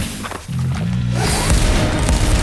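Gunfire aimed upward through a hole, followed by earth and concrete debris showering down: low booming thuds at first, then a louder, broad crashing rush of falling rubble that continues to the end.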